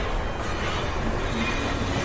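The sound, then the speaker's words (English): A train produces a steady, unbroken rumbling roar that holds an even loudness throughout, with no distinct clacks or voices standing out. “Hey, where's the train going? Wait, can we stay on?”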